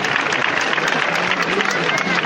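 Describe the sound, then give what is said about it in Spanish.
Applause from the San Juan neighbourhood crowd at a Good Friday Holy Week procession in Jaén, a steady, dense wash of clapping that holds at an even loudness throughout. “Bueno, silencio relativo, ¿no? Porque es roto por el aplauso y el fervor del barrio de San Juan.”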